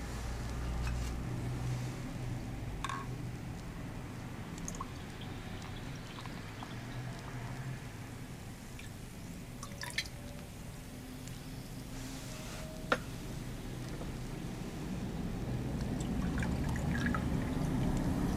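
Champagne pouring from a freshly opened bottle, a soft, steady liquid trickle over a low hum, broken by two brief sharp clicks.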